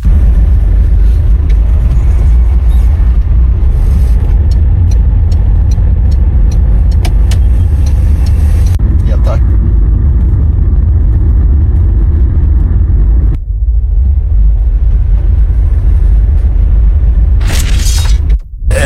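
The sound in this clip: Road noise in heavy traffic, recorded from inside another vehicle travelling near a pickup truck, makes a loud, steady rumble of engine and tyres for the whole stretch. A few brief sharper bursts come near the end.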